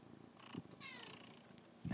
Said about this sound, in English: I don't know if you could hear her, but she's purring.